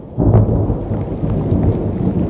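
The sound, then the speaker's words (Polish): Deep rolling thunder from a spring storm near a hilltop castle, used as a radio drama effect: a heavy low rumble swells in after a brief quiet start and holds loud to the end over a steady hiss of rain. “Potężny grzmot uderzył blisko Wawelu, kiedy drzwi zamknęły się za królową. Niebo przeciął piorun.”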